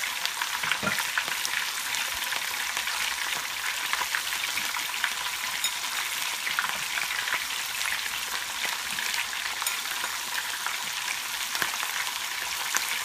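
Thin strips of meat frying in a pan give a steady, dense sizzle with fine crackles and occasional sharper pops that run unbroken throughout.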